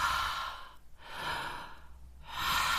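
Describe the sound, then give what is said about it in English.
Deliberate mouth breathing, with forceful inhales and exhales through an open mouth, heard as three long airy whooshes separated by brief silent pauses, with no talk. “You're going to inhale through the mouth. And exhale out the mouth.”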